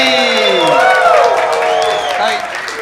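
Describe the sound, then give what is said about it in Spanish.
A live comedy show audience bursts into loud applause and cheering as a panel of comedians is welcomed. Dense, continuous clapping runs throughout, with high whoops and whistles rising and falling above it. “Un fuerte aplauso a Kiko, Eri,”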